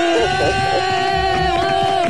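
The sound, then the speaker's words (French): Studio audience cheering on a French radio show: a loud, continuous roar of crowd voices that holds steady for the whole moment. “Ah, le public est en pleine forme, hein, ma chérie.”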